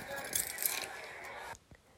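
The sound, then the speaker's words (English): Car keys jangle as they are handed over, a faint, bright metallic rattle lasting about a second and a half before stopping abruptly into near silence. “Give me your keys. I'm driving.”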